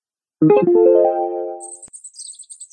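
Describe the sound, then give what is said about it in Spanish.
A mockingbird sings in a forest: a rich, harmonic lower phrase gives way to a quick run of short, high-pitched chirps. “El cenzontle. En el bosque, qué bonito canta el cenzontle.”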